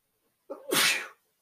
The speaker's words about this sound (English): Did not expect to sneeze, but we're not going to edit that out of there. We're just going to leave it in.